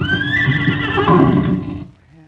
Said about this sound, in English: Here's our horse. Ain't he beautiful?